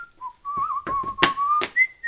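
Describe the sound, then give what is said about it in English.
A person whistles a wavering tune, holding a clear steady tone that dips, slides back up and rises to a higher note at the end, with a few short noisy bursts in between. “I'm making a whistle”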